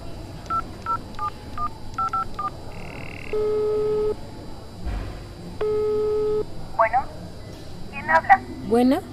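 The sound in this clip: Telephone call tones from a hospital phone: a rapid run of many keypad dialing beeps, then two long, level ringback tones with a pause between, and a brief voice near the end.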